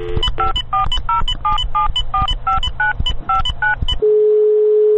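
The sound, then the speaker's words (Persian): Touch-tone keypad beeps as a telephone number is dialed to a company's line: a rapid, even run of many short two-tone beeps over a low hum, then one long steady tone. “ناراحتین تماس بگیرین حذف کنن”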